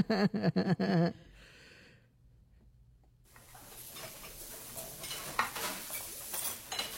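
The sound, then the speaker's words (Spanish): A spoon stirs in a pot, making soft scraping and light metallic clinks with a faint sizzle. It builds from quiet after a short louder opening passage. “está batiendo la olla, la cuchara.”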